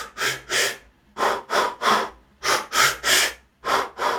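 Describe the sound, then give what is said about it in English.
A person demonstrates rhythmic but staccato breathing: many short, sharp breaths, loud and alone, grouped in quick pairs and triples with brief pauses between groups. “it's possible to breathe rhythmically but staccato. I'll see if I can make the noise so it makes sense. You can breathe in a rhythm, but it's like this.”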